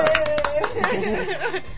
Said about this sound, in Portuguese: É uma salva de palmas pro Marcelo, então, ó.